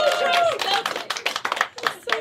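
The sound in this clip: Hand claps between speakers on a show: a few sharp, separate claps follow lively talk, and voices continue between them.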